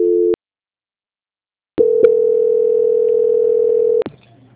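A telephone call transfer tone: a short, steady mid-pitched beep, a pause, then a long, steady tone of about two seconds that ends in a click, heard alone.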